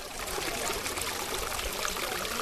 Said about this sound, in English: That is the sound of sewage water gushing through a trench in the middle of blocks of flats.